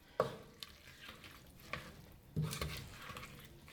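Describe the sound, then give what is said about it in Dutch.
Food frying in a pan being stirred: faint scraping strokes and a few sharp utensil knocks against the pan over a soft sizzle. “Ik ga hem dan vaak eerst een beetje erdoor roeren en dan zet ik hem soms nog even wat hoger.”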